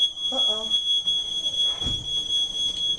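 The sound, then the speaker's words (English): A smoke alarm sounds in a home with a steady, piercing high-pitched tone that holds through the whole clip. A brief voice and a low thump are heard beneath it. “That's the smoke alarm. Smoke alarm.”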